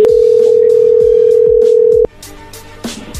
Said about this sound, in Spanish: A ver, ahí se está marcando, permíteme.